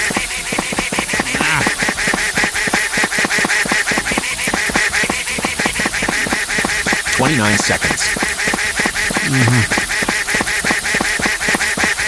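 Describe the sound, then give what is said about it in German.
Duck quacking in a video game where the duck must be shielded with an umbrella: a few short, nasal quacks sounding over loud, dense, steadily pulsing game audio. “Also wenn sie höher zu hören ist und der Ton höher wird von dieser Ente, dann ist sie zu weit weg.”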